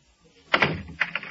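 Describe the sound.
A room door is shut and locked: a sharp thud, then a couple of quick, lighter clicks and knocks in otherwise quiet surroundings.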